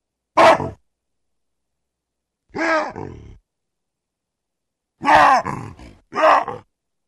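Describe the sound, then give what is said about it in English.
Loud wahoo calls from three different baboons, heard as four harsh, barking bursts separated by silence. Some calls split into two parts, the second part dropping lower. “let's hear a sequence of three different baboons doing wahoos.”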